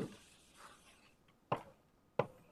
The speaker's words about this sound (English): Let me draw it as a, more as a parabola since we're using free electrons.